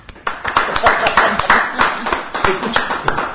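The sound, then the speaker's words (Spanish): Hired clappers behind a camera applaud, making many sharp, uneven hand claps in a loose rhythm throughout. Voices can be heard mixed in with the clapping. “No sé si sienten, hemos contratado aplaudidores que están detrás de cámara.”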